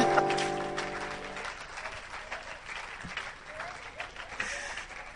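A church audience applauds during a worship service with a soft, steady patter of clapping. At the opening the clapping sounds over a held tone that fades out, then it carries on alone at a fairly low level.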